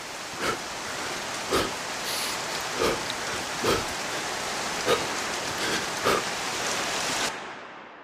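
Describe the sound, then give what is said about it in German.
Rain falls in a steady, even hiss. A series of soft thuds recurs roughly every second on top of it, and the sound cuts off abruptly just before the end. “Der Regen kitzelt an Jonathans Nase und auf Jonathans Armen und klatscht gegen Jonathans Beine.”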